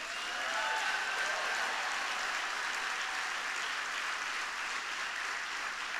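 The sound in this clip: Applause from a church audience in Little Falls welcoming guests: steady, dense clapping that holds at an even level for the whole stretch.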